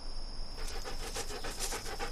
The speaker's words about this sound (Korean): 그러자 모두 한층 더 빨리 숨을 몰아쉬었다